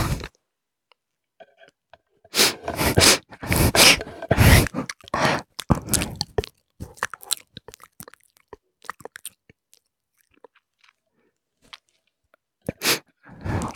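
Chewing and biting of sweet cake, close and loud, in clustered bursts of crunchy, moist mastication early on, then sparser, quieter ticks and smacks, with a final short burst near the end.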